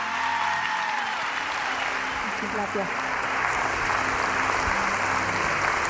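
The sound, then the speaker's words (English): A church audience applauds and cheers as they stand to welcome a guest with the Celebration Church welcome. The clapping forms a dense, steady roar lasting the whole clip, and voices carry over it. “So would you just do me a favor and stand up one more time wherever you at, and let's just give Charlotte Gamble the best Celebration Church welcome that we can.”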